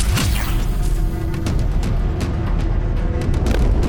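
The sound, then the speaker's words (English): In a submarine video game, countermeasures are deployed against an incoming torpedo. A rapid series of sharp, percussive bursts rides over a dense, loud, rumbling wash of noise that holds steady throughout. “Torpedo incoming! Need to time this right. Deploying countermeasures. Now!”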